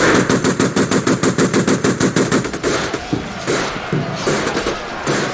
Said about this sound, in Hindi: Soldiers आगे बढ़िए, fire!